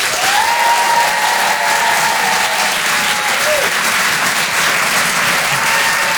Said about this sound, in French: Faites du bruit, s'il vous plaît, pour Charlie Niobe.